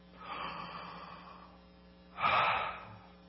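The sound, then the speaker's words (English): A big breath in and then out: a long, soft, airy inhale, then a shorter and louder exhale, two separate swells of breath noise with no talking. “I want everybody to take a big breath in and breath out.”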